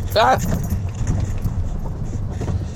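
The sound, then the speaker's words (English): A low, steady rumble of car noise while driving home, with a person speaking over it. “Driving home. And I hope it's not too noisy.”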